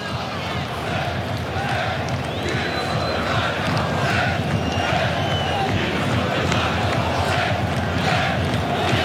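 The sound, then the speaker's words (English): Moroccan football supporters roar in a stadium in Foxborough during a match against France, a dense, unbroken crowd din with many voices blended through it. “It's the sound of the Moroccan supporters.”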